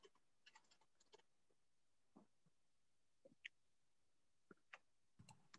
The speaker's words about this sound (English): I type slow. Sorry.